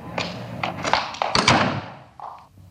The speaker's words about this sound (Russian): прямо перед ней дверь захлопывается от сквозняка